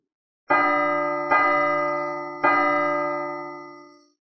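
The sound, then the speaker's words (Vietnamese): A great bell tolls from afar, three deep strikes spaced about a second apart, each loud and rich with ringing overtones that hum on and slowly fade before the next, the last dying away alone. “Vào thời khắc này, từng tiếng chuông hùng vĩ từ đằng xa truyền đến, vang vọng giữa không trung, toàn bộ Tu La Thành đều nghe thấy rõ ràng”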